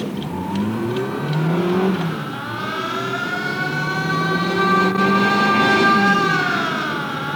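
A car speeds off in a rush to the hospital, its engine roaring loud and steady while the whine swells and sags in pitch as it accelerates; no voices are heard.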